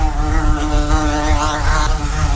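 A wasp buzzes loudly and steadily throughout, a continuous droning hum with a rich, even tone and no other sounds.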